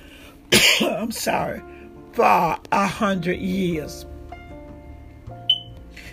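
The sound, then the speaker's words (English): Coughing from a man: a few harsh, raspy bursts in close succession, fairly loud, followed by a faint steady tone. “please excuse me for coughing”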